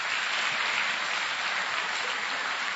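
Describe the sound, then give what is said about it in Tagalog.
Applause from an audience during a church worship service: continuous, even clapping at a moderate level, holding steady throughout. “Palakpakan natin ang Panginoon.”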